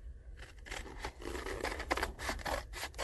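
Scissors quietly snip and slide through paper while cutting out the back of a paper craft tail piece, a soft run of faint scraping cuts.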